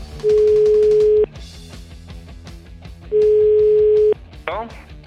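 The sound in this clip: Telephone line tone while placing a call: two steady, mid-pitched tones, each lasting about a second and separated by a pause, sounding over a rhythmic music bed.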